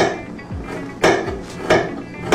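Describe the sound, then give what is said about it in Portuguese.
A knife chopping araucaria pine seeds (pinhão): a few crisp, sharp knocks at a slow, uneven pace, with softer thuds in between. “Então, eu cortei todo o pinhão.”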